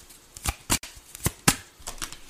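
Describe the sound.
Tarot cards being shuffled, heard as several brisk, papery flicks and snaps in an uneven rhythm, with quieter rustling in the gaps between them.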